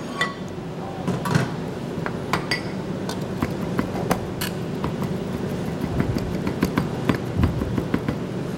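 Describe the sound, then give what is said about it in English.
Garden-grown tarragon leaves being chopped with a knife: many quick, light taps in an uneven rhythm over low, steady background noise. “So I'm going to take some of the leaves of the tarragon off. And I'm going to just chop those up a little bit.”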